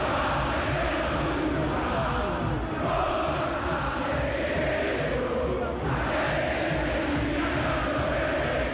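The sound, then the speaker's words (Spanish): Boca Juniors supporters sing in a football stadium during a match against Recoleta: a dense, steady roar of many voices chanting together, loud and unbroken throughout. “Si el primer tiempo era un sueño, este arranque de segundo tiempo es una verdadera pesadilla para Recoleta. Y canta el público de Boca.”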